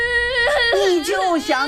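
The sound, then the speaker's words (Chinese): A child cries in a high, wavering wail, with sobbing breaks between strained, tearful vocal bursts. “别哭了，别哭了。”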